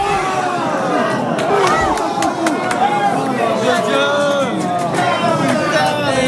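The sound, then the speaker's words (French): A bar crowd watching France's football match on three screens sings the Marseillaise in chorus, a loud, dense mass of voices with wavering sung pitches running throughout. “Une Marseillaise reprise en chœur devant les trois écrans du bar, avec un léger décalage de quelques secondes pour la télé en terrasse, mais pas de quoi entamer l'enthousiasme du public.”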